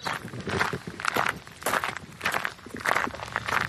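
Footsteps on a walk through the village of La Chapelle-en-Vercors form a steady, even rhythm of many crunchy steps, moderately loud and with no talk over them.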